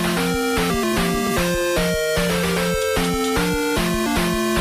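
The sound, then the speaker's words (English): A Nintendo Famicom console plays its startup tune: bright square-wave chiptune notes stepping up and down in a quick, bouncy, even rhythm, heard alone. “There is an old console called the Nintendo Famicom, which stands for Family Computer Desk System. So you can imagine it is quite old. I prefer Famicom. Yeah. And boy, does it not sound good. It sounds like this.”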